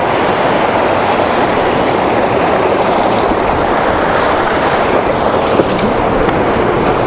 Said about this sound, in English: Right, here we go into the river.